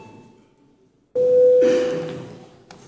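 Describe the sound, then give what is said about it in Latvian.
A bell rung before a parliamentary vote sounds as one loud, steady ring lasting just under two seconds. It breaks in sharply after quiet chamber noise and fades slowly. “Lūdzu zvanu.”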